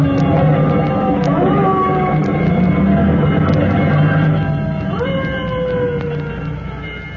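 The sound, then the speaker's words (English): A fire engine's siren wails as the rescue company drives toward a fire. The loud, continuous wail sweeps upward in pitch at points, over a low engine rumble, with no talk. “As Tim and the rescue company roll toward the fire scene”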